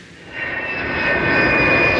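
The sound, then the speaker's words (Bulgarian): Steady roar of a modern fighter jet engine from the Bulgarian Air Force at an air base, a broad rushing blast with a bright sustained whine on top, growing slightly louder and holding strong throughout. “аз летя на свръхмодерен изтребител, който имаме на въоръжение в военновъздушните сили на Република България.”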